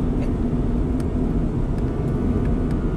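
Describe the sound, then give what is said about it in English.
Steady low mechanical drone of a fertilizer spreader motor driving a PTO, an even rumble that holds at one level throughout with a faint whir on top. “Maybe that's why it sounds like that. Because the PTO running off a fertilizer spreader motor.”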